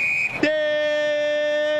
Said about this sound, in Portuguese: volta com o Grêmio na esquerda quando apita o árbitro paranaense Lucas Torezin.